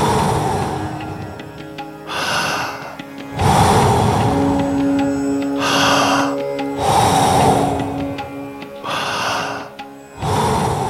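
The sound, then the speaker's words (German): Slow, deep breaths in and out during a guided breathing exercise. Several long airy inhales and exhales rise and fade in turn, with soft sustained musical tones beneath. “Voll einatmen und dann wieder loslassen. Genau so weiter. Noch fünf. Komm, hol alles raus.”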